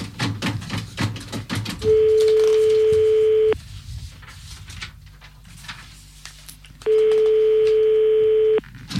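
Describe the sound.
Ringing tone of a telephone call being dialed: two long, steady, mid-pitched tones of nearly two seconds each, separated by a pause of a few seconds, over faint background clatter.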